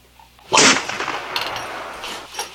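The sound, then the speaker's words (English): A gunshot sound effect: one loud, sharp blast cracks out after near silence, then trails into a long, noisy, slowly fading tail. “Bang, bang. Gunshots.”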